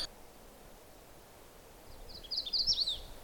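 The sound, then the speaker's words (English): A magnolia warbler sings a short, high-pitched warbling phrase of quick notes. It rises out of quiet background rustle near the end, with no talk. “That's the song of another warbler, a magnolia warbler.”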